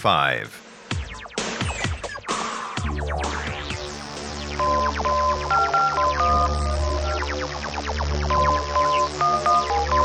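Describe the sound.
Telephone keypad dialing tones play as a run of short, clear beeps at changing pitches, layered over music with a voice talking throughout.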